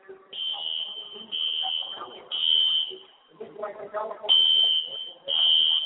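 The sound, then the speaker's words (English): A fire alarm played over a stadium PA as a rally sound during a playoff football game: five loud, shrill, steady high-pitched buzzes, separated by short gaps, with a crowd and voices beneath. “They're calling it the Rally Fire Alarm. This is the Rally Fire Alarm, ladies and gentlemen.”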